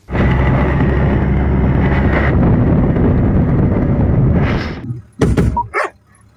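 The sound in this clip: A dog kept with Ukrainian marines at their front-line positions barks a few short, sharp times near the end, after a long stretch of loud, steady rumbling noise that suddenly drops away.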